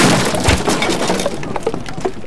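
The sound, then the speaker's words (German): A Roman catapult is smashed by a hurled menhir, giving a crashing, breaking sound followed by continuous cracking and clattering that goes on throughout. “Das Katapult ist kaputt, O Centurio.”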